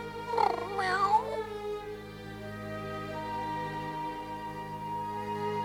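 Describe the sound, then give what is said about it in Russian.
A cat yowls after being attacked by a dog, giving two loud, wavering, high-pitched cries in the first second. Quieter steady tones continue beneath and after the cries. “Что такое? Что здесь за шум? Бедный котик.”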